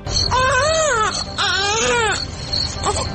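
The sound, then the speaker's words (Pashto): A small boy cries on and on after arriving in a city: two long wailing cries that rise and fall in pitch, then softer, broken sobbing and whimpers. “د جمیلي وړوکی زوی ښار ته له راتګ سره پرله پسې زاړي”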